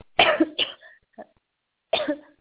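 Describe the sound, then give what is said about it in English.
A person coughing hard in the middle of speaking: a few loud, hoarse bursts with short gaps, softer throat sounds between them, and a final strong cough. “Trying to make a point and coughing away.”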